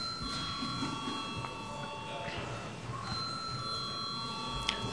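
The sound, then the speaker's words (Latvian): An electric bell rings to call a vote in the Latvian parliament chamber, a sustained, shrill ringing tone that breaks briefly midway and then resumes, over a steady low murmur of voices. “lūdzu zvanu.”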